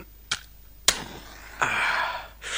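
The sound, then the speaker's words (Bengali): A cigarette being lit: two sharp, dry clicks, like a lighter striking, come first. A longer, breathy hiss follows, and another hiss starts at the end. There is no talking. “Cigarette একটা খেয়ে নিই।”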